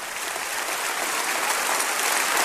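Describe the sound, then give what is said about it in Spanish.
A church audience applauds in a dense, continuous roar of clapping that swells slightly toward the end. “aplauso es para usted”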